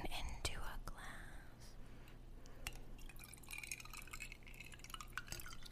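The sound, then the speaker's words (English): Wine poured into a glass, a faint, thin trickle of liquid with light drips and a few sharp glassy ticks, quiet and continuous. “Listen as I pour this wine.”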